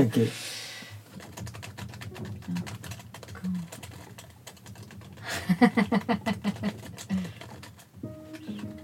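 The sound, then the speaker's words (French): Fingers type on a computer keyboard in uneven runs of clicking key presses, with a quick, regular burst of strokes near the middle and more scattered taps around it. “je pense que je vais le taper à l'ordi parce que j'y vois plus très clair.”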